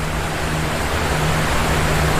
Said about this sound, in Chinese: 那就是莫奇森瀑布。瀑布前水流湍急